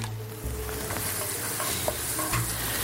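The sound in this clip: Chopped onions, about a cup, sizzling in a hot frying pan, a steady crackling hiss with occasional stirring and scraping sounds, no talk.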